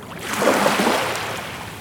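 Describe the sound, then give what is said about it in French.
Waves break against a jetty in a small harbour near Dunkirk under a grey sky: one broad, hissing wash of surf that swells and then slowly ebbs, with no voices. “Des vagues sur une jetée. Dans le petit port derrière Malo. Sous un ciel gris.”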